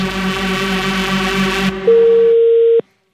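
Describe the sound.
A telephone tone sounds after a receiver is hung up: a steady, loud, unbroken tone holds for about a second and then cuts off abruptly. Before it comes a denser, pulsing hum.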